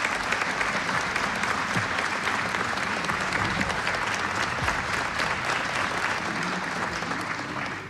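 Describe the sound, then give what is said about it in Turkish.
Audience applause for a choir and its conductor at a folk song concert: dense, continuous clapping from a crowd, steady and loud throughout, thinning slightly at the very end. “Koromuzu ve Şef Mehmet Erenleri gönül dolusu alkışlıyoruz”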